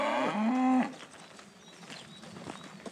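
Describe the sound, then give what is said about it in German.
A cow on a cattle farm at the edge of Hamburg moos once, loud and deep with a rich harmonic tone lasting under a second, before fading into quiet outdoor background noise. “Am Stadtrand Hamburgs betreiben sie viel Aufwand bei ihrer Rinderhaltung. Mit wandernden Tieren.”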